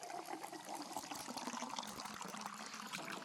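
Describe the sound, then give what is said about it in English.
Ale and mead are poured into glasses at a tavern bar, a soft, continuous trickle of liquid that stays quiet and even throughout, with no voices. “he goes and he gets your drinks and he, he doesn't smack them down on the bar, but he puts them gently down, he fills them up and.”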